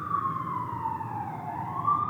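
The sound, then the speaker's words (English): Ambulance siren on a New York City street: a fairly faint, steady wailing tone that slowly falls and then rises again over a low background rumble. “I don't know if you can hear that. Here in New York City, you hear this ambulance, so it's like this wonderful reminder.”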